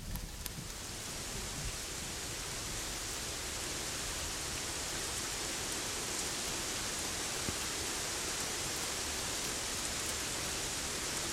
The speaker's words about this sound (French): quand un orage éclate, on entend quelques gouttes de pluie et hop, on entend chaque goutte qui tombe.